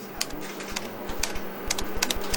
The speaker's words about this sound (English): So just type the job website address here.